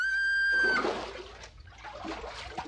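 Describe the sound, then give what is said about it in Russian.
A man diving into the sea in a radio drama: a held tonal note stops abruptly and gives way to a watery splash, followed by softer sloshing and trickling that fades unevenly. “Ныряет.”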